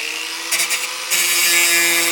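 Metal being ground with a power tool in the corner of a big, cluttered artist's workshop: a steady, bright, harsh whine with a few brief surges, then grows louder and fuller partway through.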